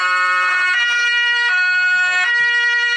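An emergency vehicle's siren, switched on from its blue-light control panel, blares as a loud, sustained tonal wail. Brief surges break into the steady tone a few times.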